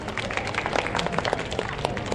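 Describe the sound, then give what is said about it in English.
Audience applause for a platypus leaving the stage at a live show: a dense, steady patter of many hands clapping at once, holding an even level throughout. “So we're gonna say goodbye to Snugglepuss so we can talk about other mammals. Can we have one final round of applause for her?”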